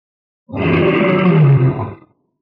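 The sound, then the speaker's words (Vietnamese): A lion roars once, loud and deep. The rough, grinding call holds for about a second and a half, then cuts off into silence. “Lão sư tử rống to”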